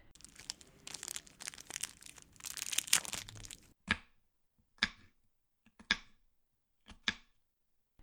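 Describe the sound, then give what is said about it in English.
Candy bars are cut into smaller pieces. Quiet crinkling and rustling comes first, followed by several sharp, separate cracks spaced about a second apart, all faint. “I'll cut them so they're smaller and I can give more out.”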